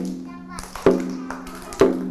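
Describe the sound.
Two sharp, loud taps about a second apart as a teacher beats out a rhythm for a children's movement activity, with a voice heard around the taps.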